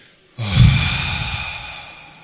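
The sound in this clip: A group of people exhale deeply together during a standing stretch on tiptoe with arms raised, giving one long breathy exhale that swells quickly and then slowly fades.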